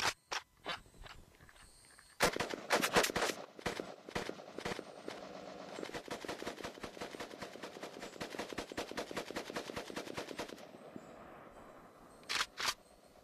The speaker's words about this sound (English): I'm going to take this AK with a 7.62 round and show you why I like the 7.62 round. Shoot straight through those blocks.